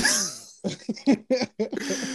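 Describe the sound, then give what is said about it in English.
Someone who thinks they have the flu coughs over a phone call, a run of short, rough, uneven bursts that follow a brief voiced sound at the start. “But you hear the cough though.”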